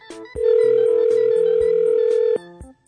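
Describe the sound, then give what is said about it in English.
An outgoing telephone call rings, a single long, steady ringback tone lasting about two seconds before it cuts off, leaving a brief quiet gap. “So we're going to call Alexa”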